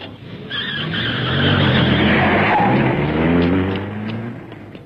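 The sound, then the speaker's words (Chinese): A car engine roars and tires squeal as the car speeds wildly through the night, driven frantically. The noise is loud and continuous and swells in the middle. “野岛连头也不回离开了我们，锥心的痛苦使他像发了疯似的开着汽车在夜幕之中乱闯。”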